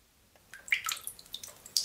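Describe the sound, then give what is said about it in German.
Water drips at many spots inside the ice cave of the Untersberg: several faint, sharp drips fall at uneven intervals, some clustered together, with no voices. “Es tropft an vielen Stellen in der Eishöhle im Untersberg.”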